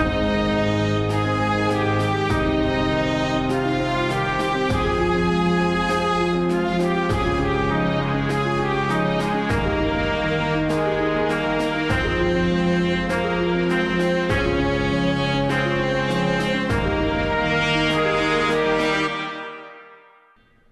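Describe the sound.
Flute, horn, trumpet, tuba, bass drum and strings play an orchestral passage, with the strings doubling the melody. Full, loud chords sound over regularly repeated low pulses, and the music fades out quickly at the end.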